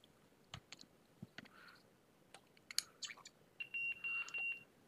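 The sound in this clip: A Rockville Bluetooth speaker beeping as its digital volume reaches full: three short, steady high-pitched tones in even succession near the end, after a few faint clicks and handling noises.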